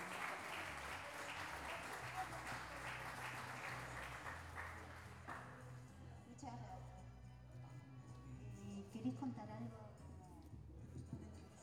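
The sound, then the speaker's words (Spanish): Applause from a crowd at a pluricultural gathering in Salta: dense, steady clapping that thins out partway through as voices take over. “Un fuerte aplauso a la República.”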